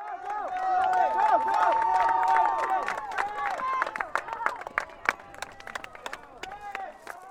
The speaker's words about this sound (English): At their final meet on Saturday, Unalaska's cross-country team and their supporters cheered enthusiastically as their teammates, classmates, siblings, and friends rounded Kelty Field and crossed the finish line.